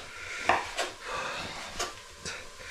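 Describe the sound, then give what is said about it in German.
A knife chops a halved sausage into small pieces on a cutting board, a few sharp knocks against the board with quieter scraping and rustling in between. “Dann können wir gleich weitergehen mit der Wurst. Dafür einfach halbieren, auf die flache Seite legen und dann in kleine Stücke schneiden.”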